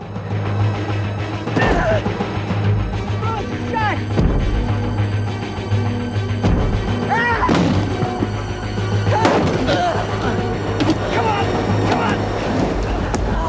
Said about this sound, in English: He bangs on the window with his hand.